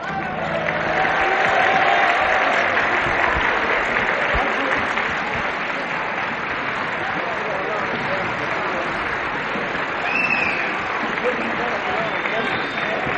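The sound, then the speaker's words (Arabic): An audience applauds a female romantic singer at a live show. Dense clapping stays steady and loud for the whole stretch without a break. “هذه العاصفة سيداتي وسادتي من التصفيق يقابل جمهور الحاضرين هنا، يقابل المطربة العاطفية،”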